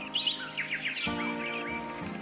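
Birds singing in quick, high chirps and short trills, with a steady low tone coming in partway through and holding beneath the calls.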